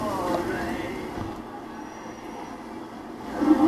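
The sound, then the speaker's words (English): A train approaching on rails at a third-rail line: a steady, broad rumble with a faint high squeal that grows louder toward the end. “Oh man, a train is coming.”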